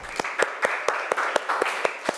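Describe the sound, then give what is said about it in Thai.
Students in a classroom clap for their classmates after a group presentation. Nine sharp, evenly spaced claps land in a steady unison rhythm over a constant background hiss. “โอเคปรบมือเพื่อนหน่อยค่ะ”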